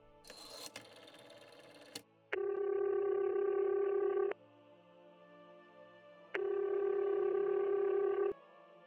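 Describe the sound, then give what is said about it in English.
A phone number punched into a desk telephone keypad as a brief flurry of electronic beeps, followed by two long, steady ringing tones separated by a quiet pause. “I take a chance, slide behind the desk, and punch Peter's number into the Vox box.”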